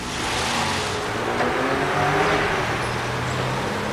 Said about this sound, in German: Ein Streifenwagen rollte durch die Burgstraße und hielt vor dem Haus, in dem Ute Fleming wohnte.